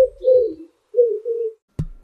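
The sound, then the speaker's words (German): A pigeon gives two low, throaty coos, each a soft rolling murmur. Two sharp clicks follow. “das Gurren kommt meistens von männlichen Tauben”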